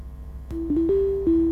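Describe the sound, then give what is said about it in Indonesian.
A telephone line tone sounds while an operator places a call. A steady low tone starts partway in, with a few clicks and brief shifts in pitch. It plays alone, with no talk. “Kamu iya menunggu telepon tak semua. Kita coba lagi nih. Ini operator saya nih lagi mencoba. Oh, ada bunyi-bunyinya lagi nih.”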